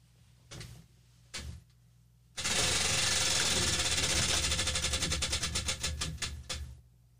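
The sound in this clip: A prize wheel with dollar amounts is spun: two brief knocks, then a loud, dense rattle of clicks from the pegs that gradually breaks into separate, slowing ticks as the wheel winds down.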